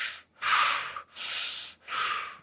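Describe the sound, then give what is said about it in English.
Audible breathwork: air drawn in and pushed out through the mouth in a connected breath pattern, heard as three long, loud, airy rushes with only short gaps between them and no talk. “when you're breathing, the connected breath, in the mouth, out the mouth,”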